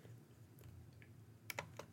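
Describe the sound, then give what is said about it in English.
Keys click faintly as someone types on a computer keyboard. A few quick keystrokes cluster near the end, with quiet background noise between them. “I'm typing that now.”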